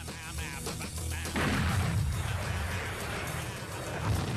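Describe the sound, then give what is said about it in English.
A real gas bomb exploding in a building gives a loud, dense roar that swells sharply partway through and then rumbles and crackles on steadily to the end. “watch the building in the background, boom. You know, that was a real, you know, gas bomb going off in that other building.”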